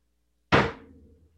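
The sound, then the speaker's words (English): A fist slamming down on a table as a sound effect: one heavy, loud thump with a short fading ring, alone. “here comes the sound effects, people. Her fist slammed down on the table.”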